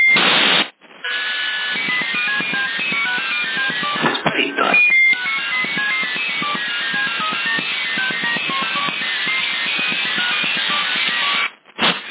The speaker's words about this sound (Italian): C'è quel bip multiplo in USB che disturba molto. Dovrebbe essere un pallone sonda